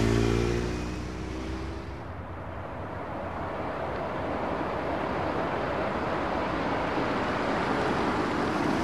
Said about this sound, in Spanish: Pone el coche en movimiento.